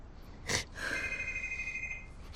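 Mobile phone ringing: a faint, steady high electronic tone held for just over a second, with a short noisy burst before it and no speech.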